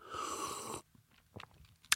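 Coffee being slurped: a loud, breathy hiss of air and liquid drawn in over nearly a second, then a few faint wet mouth clicks and one sharp click near the end.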